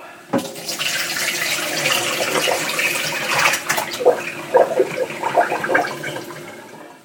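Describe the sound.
Water and raw potatoes poured from a bowl into a colander: a steady, rushing splash lasting several seconds, with a few hollow knocks as the potatoes drop, thinning out toward the end.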